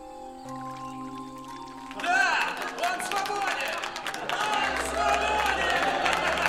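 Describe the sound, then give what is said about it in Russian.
A film scene of a bar full of police officers congratulating Jack: soft sustained music tones give way to loud crowd cheering and clapping mixed with many voices. “Бар с полицейскими поздравляет Джека.”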